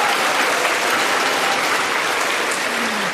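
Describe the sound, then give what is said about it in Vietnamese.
Young men applauding in an audience: dense, steady clapping that holds an even loudness throughout, with no voices over it. “Các bạn trai vỗ tay làm cho các bạn gái nhìn xuống”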